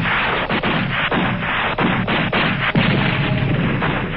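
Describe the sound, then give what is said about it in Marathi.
Gunfire from inside a house during a pre-dawn raid, a loud, dense barrage of overlapping cracks and booms with many rapid shots and no voices. “घराजवळ येताच आतून गोळीबार सुरू झाला.”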